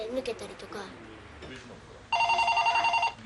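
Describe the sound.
A telephone rings in a single loud, trilling burst lasting about a second, after a stretch of people talking with no ringing beneath the voices.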